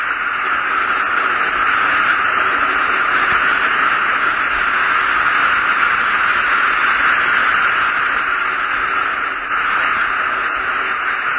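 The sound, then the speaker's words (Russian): Steady hiss of cosmic radio noise picked up by a radio telescope, a dense, even static wash that stays at a constant loudness throughout with no distinct events. “долетают взрывы рождающихся звезд, голоса галактик. Это белый шум космоса.”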